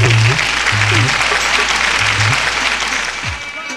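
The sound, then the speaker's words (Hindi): Loud applause from an audience at a stage event in Delhi welcomes a guest singer known for question-and-answer rasiya songs. Dense, sustained clapping fills the whole clip, with brief low tones underneath, and eases off slightly near the end. “Delhi एक बार जोरदार ताली बजा करके स्वागत करेंगे।”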